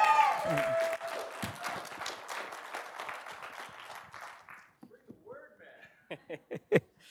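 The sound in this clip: Applause, with a little cheering, from a church audience welcoming a speaker to the stage: dense clapping that gradually thins and fades over about five seconds, followed by a few scattered, louder sounds.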